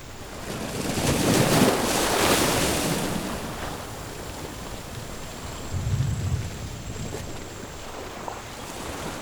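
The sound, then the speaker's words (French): Ocean waves surge and wash in a broad, steady roar, with a strong swell building early and another rising later, under constant wind noise with no voices. “Je n'avais jamais remarqué l'océan ici.”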